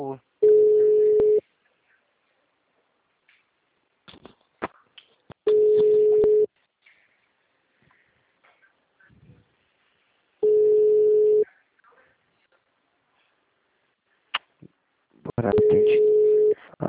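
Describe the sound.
A telephone rings back on the line: four identical one-second tone bursts, evenly spaced about five seconds apart. Faint clicks and scattered small noises fall in the quiet gaps between rings.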